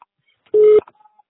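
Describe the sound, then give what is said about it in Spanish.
A voicemail recording tone: one short, steady, mid-pitched electronic beep lasting about a quarter second, heard alone with only a few faint clicks around it. “Por favor, grabe su mensaje después del tono.”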